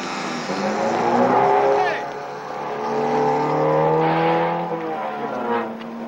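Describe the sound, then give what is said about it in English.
A white roadster drives away from a lot, its engine giving a steady, droning hum that swells and eases over several seconds. “then stumbles out to the lot as the white roadster drives away”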